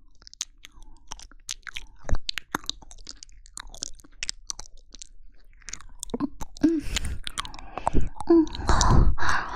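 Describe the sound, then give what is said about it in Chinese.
Wet chewing and mouth sounds with crunchy bites, many quick clicks and smacks that start quiet and sparse, then grow denser and louder toward the end, with no talking. “既然如此，那就吃掉好了。”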